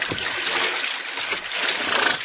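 Water splashing and lapping as an animal stops to drink, a dense, steady wash of noise with no voices.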